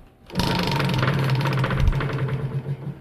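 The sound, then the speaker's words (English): A prize wheel spins with a dense, rapid, steady clatter of ticking that starts abruptly and runs for about three seconds, becoming slightly more uneven toward the end. “We're going to spin the wheel.”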